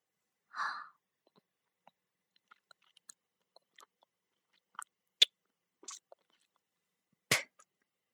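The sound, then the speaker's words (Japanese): A person chewing and eating food: one soft breath near the start, then a few sparse, sharp moist clicks and crunches spread out across quiet gaps, all faint. “よく噛んで食べろ。”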